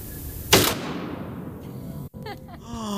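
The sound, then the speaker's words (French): A pump-action shotgun fires one loud, sharp blast with a long decaying tail, followed later by short mechanical clicks and a brief voice. “Tu tires contre toi la pompe du fusil. et tu pousses d'un coup sec. Elle est chargée, prêt au tir. Et tu presses lentement la détente, elle va assez dur.”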